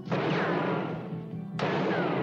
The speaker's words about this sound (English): That's six shots